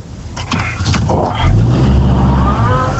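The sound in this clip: A car engine and road rumble during a turn, heard from inside the car: a loud, steady low drone that thickens midway, with a voice speaking briefly near the start.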